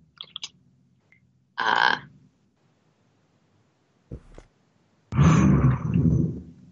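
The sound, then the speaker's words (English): Ambient background noise of a science-fiction spaceship: a few separate growling, roar-like rumbles and faint chirps, the last burst longest and loudest. “And all of a sudden there's a tiger on the ship. No, it's just the ambient noises of a Star Wars ship.”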